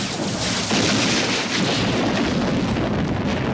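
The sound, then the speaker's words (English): Heavy weapons fire and explosions pound spaceship batteries during a science-fiction space battle, forming a loud, dense, continuous roaring barrage without clear breaks. “Main batteries destroyed. We're taking heavy fire. All ships rally on Borealis. Provide cover and fire.”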